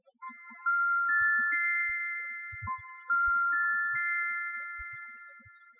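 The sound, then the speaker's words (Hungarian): A futuristic videophone rings in a Hungarian radio play: two rising electronic chime phrases of a few sustained notes each ring out and slowly fade, with faint low knocks underneath. “Azonnal felhívom videfonon, bejelentem neki.”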